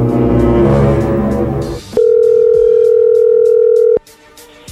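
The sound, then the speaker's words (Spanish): Steady telephone call tone, a loud unbroken note holding for about two seconds before cutting off abruptly, after a buzzy harmonic sound at the start. “ahí entró la llamada”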